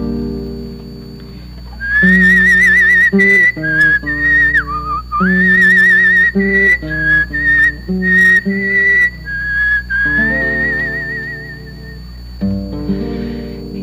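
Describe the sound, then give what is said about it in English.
A person whistles a call to a flock on a mountainside: a loud, wandering, warbling melody with many short phrases, sounding over sustained accompanying tones. “He whistles the call once more, and he and his flock wander up the mountainside.”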